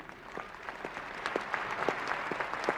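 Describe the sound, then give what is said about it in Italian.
Applause from a large assembly during a speech: dense, continuous clapping from many hands, swelling slightly louder toward the end, with no talking over it. “Ratzinger viene ripetutamente interrotto da applausi spontanei”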